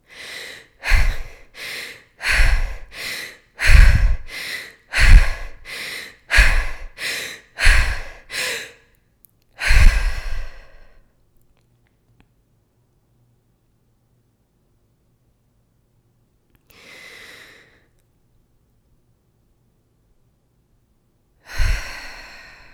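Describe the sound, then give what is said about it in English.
Rhythmic breathing during a breathing exercise, with air drawn in through the nose or mouth. A quick, steady series of loud breaths gives way to one longer exhale, then a long quiet stretch broken by two more isolated breaths. “this one you could also breathe through your nose or through your mouth. It doesn't matter. Just get air in, just get oxygen in, okay?”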